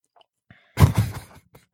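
Chewing a coconut, spoiled-milk-flavoured candy: one short burst of crunchy, moist mastication noises that quickly dies away, surrounded by near silence.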